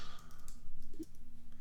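Typing on a computer keyboard: faint, rapid, irregular clicking keystrokes that run steadily throughout.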